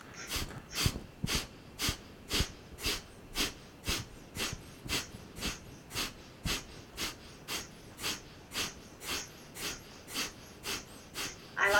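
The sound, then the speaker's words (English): Rapid nasal breathing for a breath-of-fire exercise, blown right onto the microphone: many sharp, even puffs through the nose at roughly two per second, loud and breathy with no talking. “Is this gonna sound crazy if I breathe my nose breath onto the microphone?”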